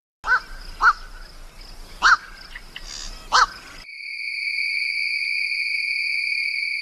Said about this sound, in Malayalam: രാത്രിയിൽ ഇര തേടുന്ന പക്ഷികളെയാണ് പൊതുവെ പാതിരാക്കിളിയെന്ന് വിളിക്കുന്നത്. രാത്രികളെ സംഗീതസാന്ദ്രമാക്കുന്ന പക്ഷികളാണിവ.